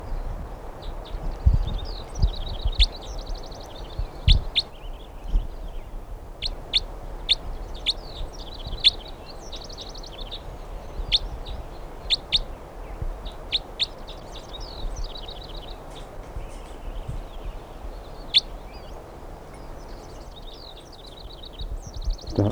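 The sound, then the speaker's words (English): A bird held in the hand gives many short, high chirps in quick bursts over the full length, with low background noise beneath. “Recording, this is bird 319 being handled.”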